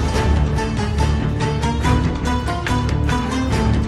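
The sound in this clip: Orchestral film-score music from a Sherlock Holmes film, dense and driving, with rhythmic percussion and layered strings, playing continuously and loudly without pause and with no voices.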